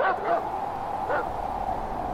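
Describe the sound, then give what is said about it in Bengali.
A large black shaggy dog barks in a few short, mid-pitched bursts spaced apart over a low, steady background. “বাড়ি থেকে একটা বিশাল বড় কালো লোমশ কুকুর এগিয়ে এলো। রামায় দেখতে পেয়ে পরিত্রাহী চিৎকার জুড়ে দিল।”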